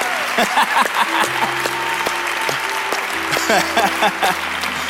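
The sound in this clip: Applause and cheering ring out at a church service for a member who has just learned she is cancer-free. Dense, steady clapping runs throughout, with sustained musical tones playing underneath.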